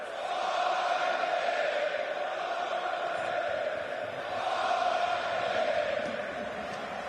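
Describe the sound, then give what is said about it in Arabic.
Norwegian football fans perform the Viking chant. The sustained, faint wall of massed voices swells twice before settling back. “حلوين، فايكينج فايكينج بهكذا الصوت بالرغم من قلة الجمهور النرويجي الحاضر، إلا أن القلة قد تتغلب على الكثرة اليوم.”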